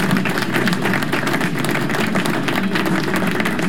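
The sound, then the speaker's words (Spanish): Applause rings out as a continuous, dense patter of many hands clapping, loud and steady with no pause from start to finish. “así que aplauso”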